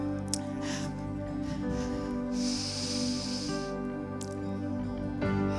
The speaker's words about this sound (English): Take a deep breath.